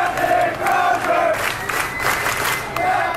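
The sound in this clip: Hundreds of sailors cheer and whoop as their commanding officer walks off the USS Theodore Roosevelt, a loud, continuous roar of many voices swelling and easing without a pause.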